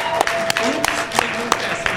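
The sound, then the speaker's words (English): Audience applause for a quiz show contestant: steady, dense clapping with a few sharper, louder claps rising above it, lasting the whole stretch. “Can we give a round of applause for Gavin for playing along with us tonight?”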